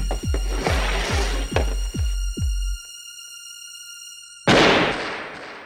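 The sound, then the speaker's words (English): A pistol shot in a game of Russian roulette: a sudden loud, noisy blast that fades slowly. Before it comes a series of rhythmic low thuds over steady tones. “Good luck. Now you go. Here is the pistol.”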